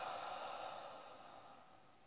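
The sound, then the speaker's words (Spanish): Deep exhalation during a guided meditation with mantra chanting: a faint, steady, breathy rush of air that slowly fades over about two seconds, with no talking. “Vamos, otra inhalación profunda. Exhala.”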